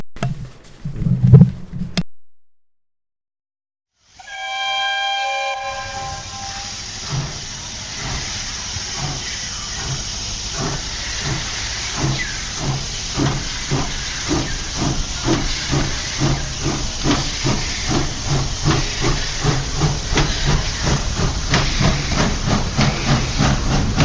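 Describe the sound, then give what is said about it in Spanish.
A steam train starting to move: a short burst of noise, a pause, then a loud hiss of steam that settles into steady, rhythmic chuffing which continues to the end. “Sabes que este tren está siempre en movimiento y arrancamos.”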